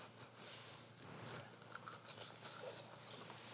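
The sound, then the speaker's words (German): Crisp crackling and crunching of fried asparagus chips being bitten, a fairly faint, dense run of many small snaps and crinkles that swell in the middle and then settle. “Hörst du, wie sie knuspern? Das ist das Zeichen, dass sie gut sind?”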